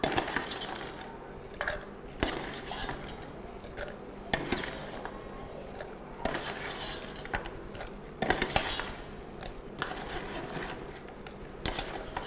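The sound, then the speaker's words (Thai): A spoon scooping contents into a jar: many irregular clinks and scrapes of metal against the container, with a scratchy texture in between and no voices. “เป็นกระปุกได้นะครับเราก็ใส่ลงไปนะครับอาจจะใช้ช้อนตักลงไปได้นะครับ”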